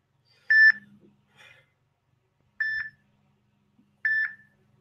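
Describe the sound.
Three short electronic beeps from a phone signalling a dropped call. They are evenly spaced, clear mid-high tones, each lasting a fraction of a second, with near silence between them.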